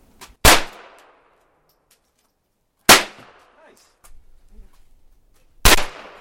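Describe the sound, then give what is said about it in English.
Students fire handguns at cardboard targets about five yards away: three sharp, loud gunshots, each well separated by quiet, with faint small clatters between them. “And when you're ready, focus on the front sight and gently, gently, gently press those triggers.”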